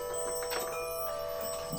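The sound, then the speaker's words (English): Wind chimes hang throughout a room, giving soft sustained metallic tones that ring on together at a faint, even level, with a few light tapping strikes scattered through. “there's wind chimes everywhere in this room. It's kind of crazy.”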